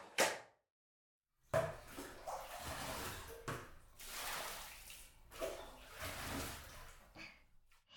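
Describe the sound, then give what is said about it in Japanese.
Hot bathwater splashes and sloshes as someone climbs into the tub: a brief splash, a moment of silence, then several soft swells of swishing water, faint and with no talk. “お湯加減はいかがですか？私も入りますね。”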